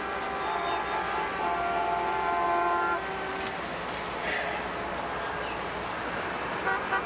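Car horns honk in a traffic jam, several overlapping sustained toots sounding together over a constant rumble of traffic. The horns drop away after about three seconds and the engine noise carries on.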